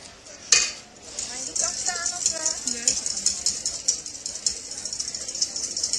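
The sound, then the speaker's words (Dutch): A utensil stirs as oil is added slowly to thickening homemade mayonnaise. It makes a steady, rhythmic scraping and clicking against the bowl, with brief voices partway through. “Als je nu heel langzaam zo'n sliertje door blijft gaan en je blijft maar doorroeren, dan gaat die olie die gaat wel binden.”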